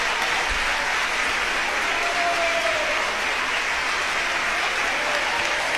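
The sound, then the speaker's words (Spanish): A concert audience applauds after the Orquesta Sinfónica de Jalapa, conducted by Lanfranco Marchelletti, performs Mahler's Symphony No. 1, "Titan". The clapping is dense, loud and sustained, an even roar with no pause. “Ustedes pueden apreciar la respuesta del público al escuchar la excelente interpretación de esta obra monumental de Gustav Mahler, la Sinfonía número 1,”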